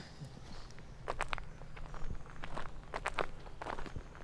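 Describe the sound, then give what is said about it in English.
Soft footsteps of people walking toward Avebury Manor fall in a quiet, uneven rhythm with light rustling and no talking. “So we're going to walk now to Avebury Manor, just okay. Over there.”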